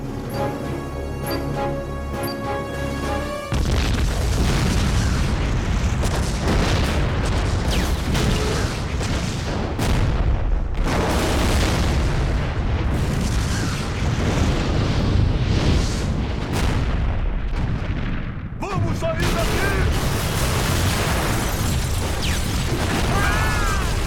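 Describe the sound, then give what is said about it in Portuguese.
Explosion of a planted explosive in an ammunition depot holding gasoline, in an animated film: a brief tonal opening gives way to a loud, sustained roaring rumble that stays dense and heavy for about twenty seconds. “Eu programei um explosivo. Onde? Embaixo de nós. No depósito de munição. Gasolina.”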